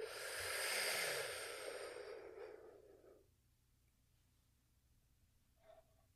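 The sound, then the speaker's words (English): A deep breath during a guided relaxation exercise: a long, airy rush that swells and fades over about three seconds, then near silence with a faint soft sound near the end. “So let's go ahead and take another deep breath.”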